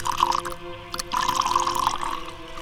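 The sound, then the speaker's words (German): A drink is poured into a glass: a steady, trickling pour with a short break partway through, heard fairly faintly over a low background hum. “Gieß mir auch ein. Einen Schluck vor dem Gang in die Unterwelt.”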